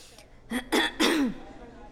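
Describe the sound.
A woman clears her throat in a courtroom before giving testimony: three short, rough bursts in quick succession, the last one longest and trailing off, with no talk around them.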